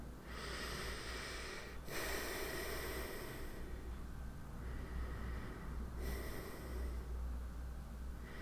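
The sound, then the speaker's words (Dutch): Deep breathing in and out during a guided relaxation exercise: a few slow, drawn-out breaths of rushing air, fairly loud and steady, over a constant low hum, with no talk. “wil je nu vragen om nog twee keer diep in en uit te ademen.”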